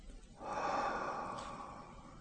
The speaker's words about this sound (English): Keep your eyes closed and let's take a deep breath in